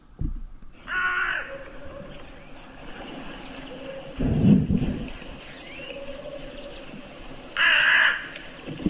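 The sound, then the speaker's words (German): A hooded crow calls in a played-back recording, giving a few loud, harsh, rasping caws separated by short pauses. “Ich lasse die Nebelkrähe mal abspielen. So hört sie sich an.”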